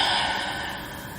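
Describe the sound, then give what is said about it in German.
A deep breath taken during a guided relaxation exercise, heard as a steady, breathy rush of air that slowly softens over about a second. “Dann atme nochmal ganz tief ein durch die Nase und durch den Mund aus.”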